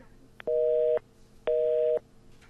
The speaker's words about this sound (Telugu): Hello, మళ్ళీ call cut అయిపోయింది, signal problem ఉన్నట్టుంది.